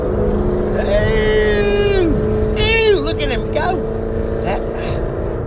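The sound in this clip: A Corvette sports car, driven by an older man, passes while the recorder rides in a vehicle. A brief swell of engine noise rises over a steady road drone.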